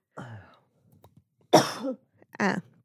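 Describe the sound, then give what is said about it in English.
Coughing from allergies flared up by storms: three short, rough coughs and throat-clearing bursts, separated by brief silences. “back to that coughing game. Allergies have been really bad in Austin lately because of the storms.”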